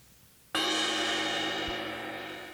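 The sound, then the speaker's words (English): A cymbal struck once, recorded on tape at 7.5 inches per second: a bright, sudden crash after a short quiet lead-in, then a shimmering sustain that slowly fades without dying out. “here's the sound of a cymbal recorded at 7.5 inches per second.”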